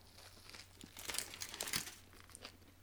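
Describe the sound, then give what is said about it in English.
Foil wrapper crinkles quietly while food is unwrapped, with soft crackling bursts that grow busier and louder in the middle before thinning out, heard alone without talk. “So, minus the foil noise, I do apologise.”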